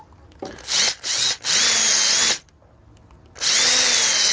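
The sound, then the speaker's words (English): A power drill drills holes in four loud whirring bursts separated by short pauses. The third burst runs longest, and the last starts after a quiet gap. “Okay, two holes are drilled.”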